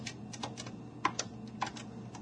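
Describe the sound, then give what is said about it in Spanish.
Soft key presses as a PIN is typed on a BBVA cash machine keypad: several faint, separate clicks at an uneven pace, with two sharper taps in the middle. “Por favor, teclea tu código PIN. Y ahora lo voy a teclear, pero desde el propio cajero.”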